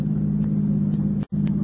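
A car engine rumbles steadily as it drives home at night, a continuous low hum with no clear revving, broken only by a short cut-out near the end.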